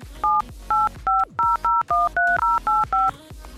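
Telephone keypad dialing for a call to a UK number: ten short, evenly spaced DTMF beeps in a quick steady rhythm, each a crisp two-tone chirp with brief pauses between.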